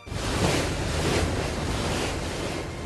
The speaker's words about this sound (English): Yes, that is the sound of a ferry as it makes its way around Norway's majestic coastline.